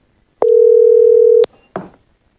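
A telephone line tone before an important call: one steady, even tone lasting about a second stops abruptly, followed after a short gap by a single brief click or rustle, with no talking.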